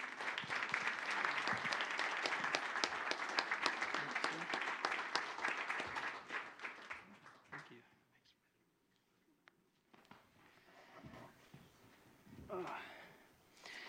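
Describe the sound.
A Unity audience applauds to welcome a guest speaker. Loud, dense clapping runs for several seconds, then thins out and dies away. After a short hush, a voice begins speaking.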